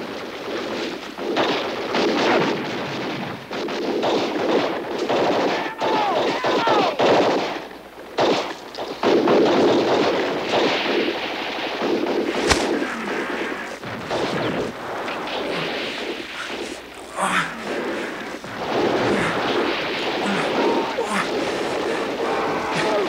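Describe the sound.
Video game gunfire: dense, continuous shooting with rapid automatic bursts and heavy single shots, including one sharp, especially loud crack near the middle, sustained at high volume throughout.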